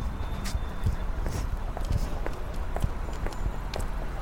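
Footsteps walking, a few soft, irregular steps over a steady, broad background noise.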